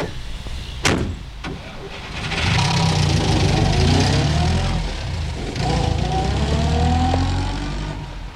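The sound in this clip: A car engine idles and then revs as the car drives away, a steady mid-pitched drone that swells, eases, and surges again with tones rising in pitch near the end.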